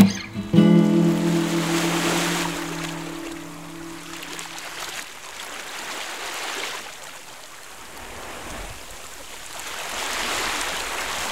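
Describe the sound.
Sea waves surge in broad, hissing swells that rise and ebb over several seconds, with a steady droning tone during the first half.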